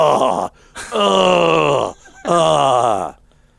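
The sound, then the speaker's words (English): A man lets out three loud, drawn-out vocal groans while leaning over to pour kibble into a dog's bowl, each lasting about a second, the later two sliding downward in pitch, with short quiet gaps between them. “is very audibly groaning every time he leans over to put the kibble in the bowl”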